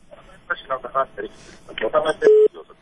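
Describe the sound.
A telephone tone on a listener's call-in line, heard as a short, steady, loud single tone that cuts in right after a stretch of talking and ends abruptly.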